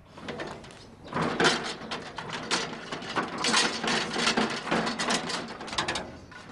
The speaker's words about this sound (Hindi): अच्छा हाँ, और दरवाजा खोलो।